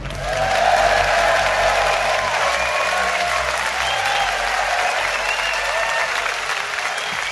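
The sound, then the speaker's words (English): Theatre Royal audience in Glasgow applauds loudly as the host comes on stage, a thick, sustained roar of clapping that swells in the first second and stays strong and even to the end. “Please welcome Richard Herring.”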